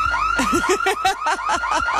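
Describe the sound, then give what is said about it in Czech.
A car alarm going off, with a loud electronic siren sweeping rapidly up and down in a fast repeating warble and steady pulsing rhythm, alone without talk. “Vypněte to, prosím vás, někdo! Ten alarm. Vypni to, vypni to!”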